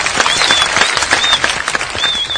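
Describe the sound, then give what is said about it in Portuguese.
Applause made of many crisp, overlapping claps with a few high whistles cutting through, fairly loud and steady from start to finish. “Palmas do John Favreau.”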